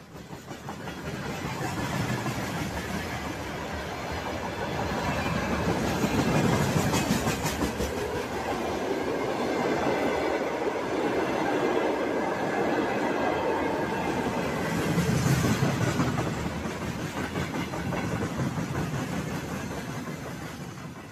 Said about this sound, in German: Das sind Güterwaggons, auf denen Panzer, Haubitzen, Raketenwerfer und allerlei militärisches Gerät aus Zentralrussland und Sibirien